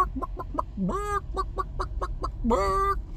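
A chicken clucks in a quick, even series of short clucks, broken twice by longer, drawn-out squawks that rise in pitch.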